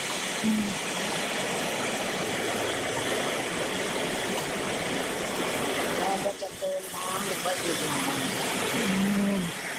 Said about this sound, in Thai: เติมน้ำลงไปนิดนึง